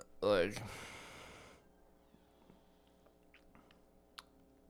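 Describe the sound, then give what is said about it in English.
Spicy noodles being eaten: a loud breathy slurp-like burst at the start, followed by faint, quiet chewing sounds and a single small click near the end. “Damn, these noodles are spicy. I'm not sure who got the noodles, but they are delicious.”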